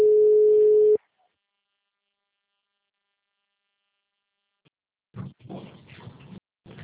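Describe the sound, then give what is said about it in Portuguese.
Ringback tone of an outgoing telephone call: one steady, mid-pitched tone lasting about a second, then a long silence before people start talking. “Tô ligando.”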